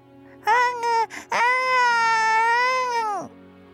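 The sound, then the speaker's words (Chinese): A baby girl cries angrily, giving two short sharp bursts and then one long, loud, sustained wail that holds its pitch before breaking off. “听到了小女婴愤怒的叫声”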